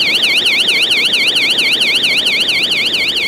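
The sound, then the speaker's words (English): A subway exit emergency door alarm sounds during morning rush hour, a loud, piercing electronic warble that sweeps rapidly up and down in a steady, unbroken cycle. “That's the alarm on the emergency door at the subway exit.”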